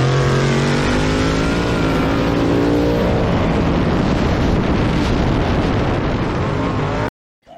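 Race cars race on asphalt. Engine whine rises in pitch and then holds as a loud, steady roar with wind buffeting before it cuts off abruptly.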